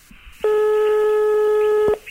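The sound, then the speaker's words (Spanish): A telephone tone sounds while calling a room at the 12 de Octubre hospital: one loud, steady electronic beep lasting about a second and a half after a brief quiet start. “Estoy marcando a la habitación,”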